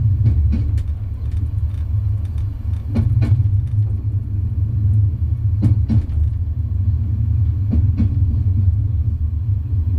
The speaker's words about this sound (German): Raum 8. Ein Zug unterwegs. Endlich mal was Friedliches.